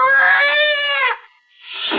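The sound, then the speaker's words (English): A scrawny cat aboard a ship lets out a long, strained, high yowl lasting about a second, then falls briefly silent before starting a second shrill cry. “Slowly, it moved into my line of vision. It was a cat.”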